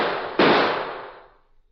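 A single sharp gunshot rings out in a radio drama shootout involving a sheriff. The sudden loud bang decays slowly into silence, with no talk over it.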